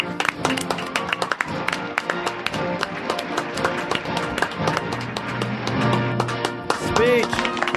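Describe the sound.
Applause welcoming the President of the United States, Bill Clinton: a dense patter of many claps at an even level, with a voice rising briefly near the end.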